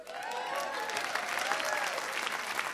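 Studio audience applause welcoming a guest onto a live show, continuous crowd clapping mixed with whooping cheers, fairly faint but sustained and even throughout.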